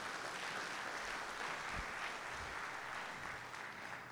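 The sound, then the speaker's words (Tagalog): A church audience claps for the Lord in a steady, faint wash of applause that holds at an even level throughout. “Palakpakan nga natin ang Panginoon natin.”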